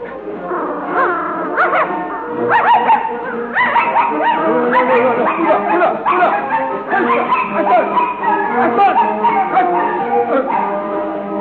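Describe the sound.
A young red dachshund–mongrel mix barks and yips in many quick, sharp bursts, mixed with whimpering cries throughout, loud and continuous.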